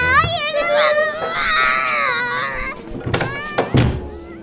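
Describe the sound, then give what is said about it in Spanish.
A child cries in a long, wavering, high-pitched wail that rises and falls, then breaks off into short sobbing bursts as an adult speaks sharply. “¿Y ahora? ¿De qué estás llorando? ¡Cállate! Señora, por favor, vaya a hacer llorar a su hijo afuera.”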